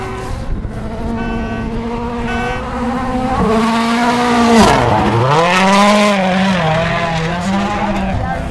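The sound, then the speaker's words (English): A Toyota rally car races past on a World Rally Championship stage. Its loud engine roars steadily, climbs in pitch as it nears, then drops sharply as it passes and keeps howling as it pulls away. “Oh, here comes one of the Toyotas. Listen to this.”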